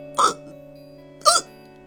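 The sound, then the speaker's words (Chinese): A little bear hiccups twice, about a second apart. Each is a sharp, short voiced burst over a soft, steady background tone. “才说了一句话呀，小熊又打起嗝来了。”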